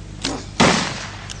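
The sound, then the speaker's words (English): Two gunshots fire in quick succession during a rapid double-shot drill: a sharp crack followed less than half a second later by a louder blast, whose tail decays slowly, with a faint click near the end. “He shot two, and it sounded like it was one shot.”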